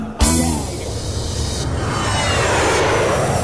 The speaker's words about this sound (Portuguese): Prepare o avigãozinho, vai girando devagar. Mas se ligue, garotada, o avigão vai decolar.